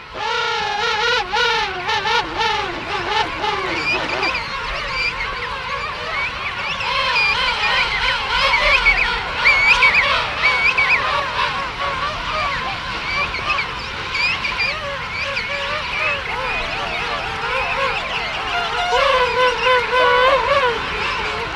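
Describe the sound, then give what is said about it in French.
A penguin colony calls as chicks and parents seek each other: a dense, continuous chorus of many overlapping braying, honking cries, loud throughout with no pauses. “Je suis arrivée dans la manchotière, je me suis posée et j'avais l'impression que c'était un documentaire d'Arte”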